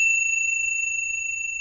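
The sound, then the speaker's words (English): A bell rings with one clear, sustained high tone and a fainter upper overtone, holding steady and loud for the whole stretch over a faint low rumble, with no voices. “they make this really pleasant ringing sound. So what I want you to do, you don't have to change your posture or anything. All I want you to do is just see if you can tune into the sound of the bell”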